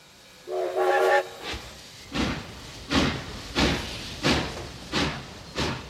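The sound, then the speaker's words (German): A steam train pulling railway carriages of emigrants departs: a short whistle blast, then a steady, evenly spaced run of about seven hissing exhaust chuffs. “Wenn die Eisenbahnwaggons voll sind, fahren sie los.”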